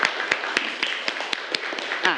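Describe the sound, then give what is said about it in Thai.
A student is applauded in a classroom with a steady, evenly spaced series of individual sharp claps, fairly sparse and moderately loud. “ปรบมือให้เพื่อนคนแรกหน่อยครับ”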